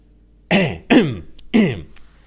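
Dry cough and throat clearing: three short, rasping bursts in quick succession, fairly loud and each fading quickly, with no talk around them.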